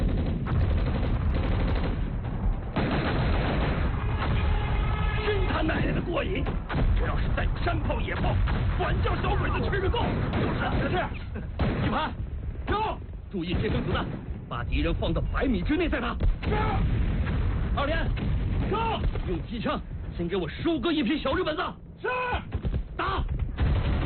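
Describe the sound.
Gunfire and mortar fire in a war drama battle, with dense, continuous volleys of sharp shots and heavy blasts and voices mixed into the din throughout.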